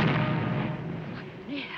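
Heavy booming blast of a pirate ship's cannon broadside firing on a mogul vessel, a loud broad roar at the start that rumbles on and slowly fades.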